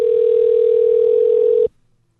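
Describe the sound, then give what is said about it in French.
A steady telephone dial tone as a call is being placed: one loud, unbroken mid-pitched hum that holds evenly for under two seconds, then cuts off abruptly into silence. “Allez, petit coup de fil.”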